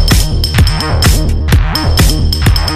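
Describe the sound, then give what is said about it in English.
Random percussion added to a song: loud, fast, regular hits punch through a repeating bouncy synth-bass pattern, with a sustained high tone running through most of the loop. “Then I throw in some random percussion”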